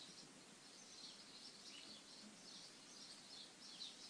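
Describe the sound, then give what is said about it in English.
Birds singing outside a window at dusk: faint, continuous high chirping and twittering over a steady low hiss. “Can you guys hear the birds outside the window? They're back again. It's what happens when I try to record this around dusk.”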